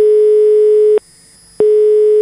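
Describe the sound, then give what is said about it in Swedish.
Ringing tone of an outgoing telephone call: a loud, steady, mid-pitched tone sounds for about a second, stops for a short silence, then starts again. “ska vi faktiskt ta och ringa upp Barbro Råsbrandt”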